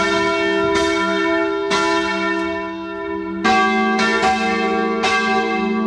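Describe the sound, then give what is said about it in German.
Church bells ring alone in loud, bright metallic strikes at an irregular pace. A deep, sustained humming tone carries on between the strikes, and several strikes overlap near the end. “Sie hören die Glocken der Kirche, naja, wo?”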